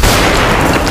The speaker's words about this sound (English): As an example, when things blew up in the original chapters, it may have sounded like this. But in Reimagined, it sounds like this.